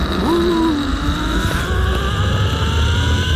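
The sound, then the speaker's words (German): Loud, steady whirring of a zip line trolley speeding along a cable over 200 metres long, high above a reservoir at a climbing park, with a droning engine-like hum and a faint tonal whine throughout. “So klingt es, wenn man in luftiger Höhe an einem Seil über die Talsperre Pöhl flitzt.”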